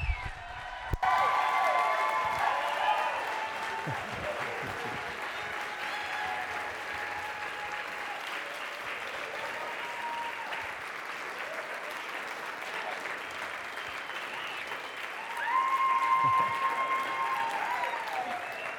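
A church audience applauds to welcome its pastor with steady, sustained clapping and some cheers, swelling louder near the end.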